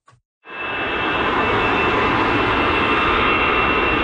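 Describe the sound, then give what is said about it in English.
A jet aircraft taking off at Paris's biggest airport gives a loud, steady engine roar that swells in quickly after a brief quiet start and holds unbroken, with no voices. “You'd be forgiven at Paris's biggest airport for not hearing anything over the sound of hundreds of flights taking off”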